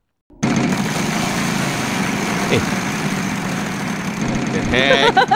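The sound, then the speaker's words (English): A motorcycle engine idles with a steady, throbbing low rumble that holds evenly and grows a little louder near the end. “aku tengah baca WhatsApp tak cakap go send bike to workshop. Lepas tahu dengar bunyi macam motor.”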